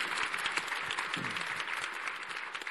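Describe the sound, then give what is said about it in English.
Audience applause for a panel at a summit on patients and clinical research: steady, dense clapping from a crowd, holding at an even level throughout. “How about a hand for the panel? I mean, that was absolutely brilliant.”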